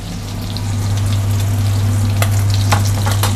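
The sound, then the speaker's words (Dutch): Salmon fries in a pan, a loud, steady sizzling hiss with scattered sharp crackles and pops, under a constant low hum and without any talk. “Oh ja, de zalm. Oh, die zit nog in de pan.”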